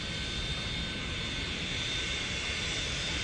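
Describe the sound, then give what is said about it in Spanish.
A steady aircraft engine roar from a small plane climbing away. The dense, even drone holds at one level for about three seconds, with no voices over it. “se prendió el motor”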